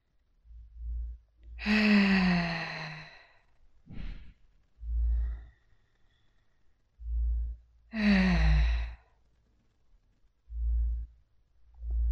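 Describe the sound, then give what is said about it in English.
Deep breaths taken during a guided relaxation exercise: slow, audible breathing with two long, voiced sighing exhales and quieter breaths between them, over soft low thumps, with no talking. “I want you to breathe deeply with me now. Let's take three deep breaths.”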